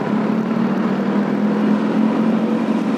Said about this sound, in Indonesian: Sorry berisik banget ya, di depan gua ada truk.